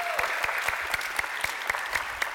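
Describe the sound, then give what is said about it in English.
A church audience claps together to welcome online viewers: steady, dense applause carried by a regular pulsing beat of sharp claps, continuing evenly throughout. “So if you guys here in person would you put your hands together? Give a warm and loud welcome to our online family.”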